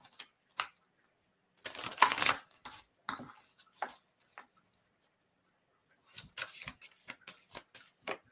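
Tarot cards being shuffled by hand in short papery riffling bursts, separated by pauses, with a longer run of quick rustling flicks toward the end; no voices.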